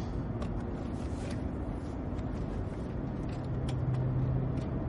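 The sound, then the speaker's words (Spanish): A car pulls away from a warehouse in a tense thriller scene, heard as a steady, low engine rumble that stays fairly quiet and even throughout, with no voices. “Fuera, el coche se aleja de una nave.”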